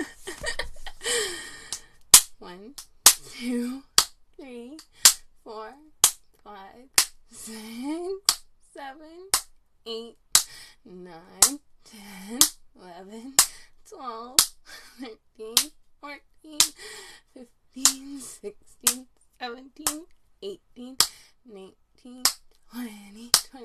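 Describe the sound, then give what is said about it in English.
Many sharp spanking slaps from a long spoon land in a steady rhythm about once a second, crisp and loud, with a person's gasps and groaning vocal sounds between the strikes. “I've already done lots of spanks. Over 100 spanks already.”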